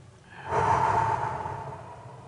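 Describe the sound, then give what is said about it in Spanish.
A long, soft, airy breath taken during a guided breathing exercise, swelling after a short quiet start and trailing on steadily to the end, with no talking. “So, lo vamos a hacer otra vez. Okay. Inhala. Exhala.”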